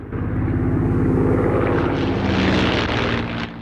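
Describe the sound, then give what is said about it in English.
A silver propeller plane flies low over a valley, rolling and diving, its engine a loud, continuous throbbing drone whose pitch wavers as it manoeuvres, easing off slightly at the end. “The plane rolls over twice more and dives downwards, then straightens, glinting silver in the sun.”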